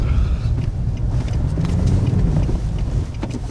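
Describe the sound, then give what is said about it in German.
An off-road vehicle drives through a recultivated open-cast mine, giving a steady, loud low rumble with some wind buffeting over it. No one speaks. “Uwe Steinhuber, Pressesprecher der LMBV, der Lausitzer und Mitteldeutschen Bergbauverwaltungsgesellschaft, fährt mit mir im Geländewagen in einen rekultivierten Tagebau.”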